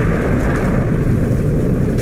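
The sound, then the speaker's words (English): Deep, sustained rumbling roar of a hydrogen bomb explosion sound effect, loud and dense from start to finish without a sharp onset. “Yeah. It's like a hydrogen bomb.”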